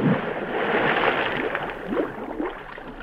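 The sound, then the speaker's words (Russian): Scuba diver going under water, leaving a trail of air bubbles: a moderate, continuous gurgling and sloshing wash with a few swelling bursts, no voices. “Пошел под воду. Он, видите, след пузырями воздуха обозначился.”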